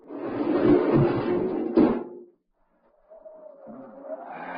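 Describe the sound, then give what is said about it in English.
A spaceship airlock opening in a radio drama: a broad, loud hissing rush lasts about two seconds and ends with a heavy clunk, then a short silence and a fainter wavering sound. “Open the airlock.”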